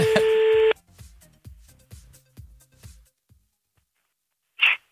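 Telephone call tones as a number is dialed: a loud, steady tone sounds first, then a run of regular, evenly spaced clicks, and a final short, bright tone burst after a brief pause.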